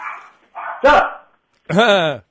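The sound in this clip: Dogs bark in a few short, loud bursts over a faint background hum. The last is a longer, harmonic yelping bark.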